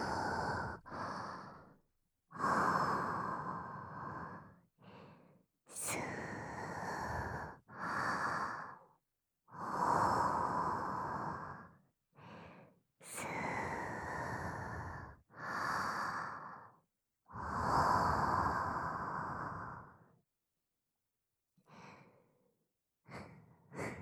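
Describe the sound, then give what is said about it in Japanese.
Deep, slow breathing from someone trying to calm down: many long, heavy breaths with short pauses between them, some harsh and snorting, following an even rhythm. “ほら、落ち着いて落ち着いて、深呼吸。”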